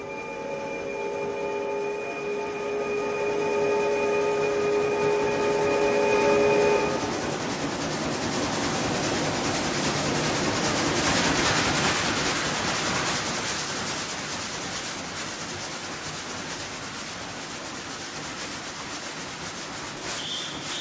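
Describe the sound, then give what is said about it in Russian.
A suburban train arrives at a station in a small industrial town in northern England on a rainy evening. A sustained horn-like tone sounds over rolling rumble for the first several seconds, then steady rubbing, clattering rail noise continues alone. “Пригородный поезд подошел к маленькому индустриальному городку на севере Англии мрачным дождливым вечером.”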